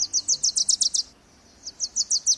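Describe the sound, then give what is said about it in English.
Wilson's warbler song: a rapid run of high, bright chips, then a short pause and another quick series of the same thin notes. “It's the tail end of summer, and the Wilson's warblers had a busy few months.”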